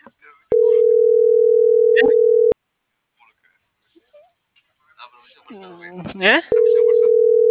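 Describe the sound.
A telephone ringback tone sounds while a call is dialing: two long, steady, mid-pitched tones of about two seconds each, separated by a pause in which a voice briefly speaks.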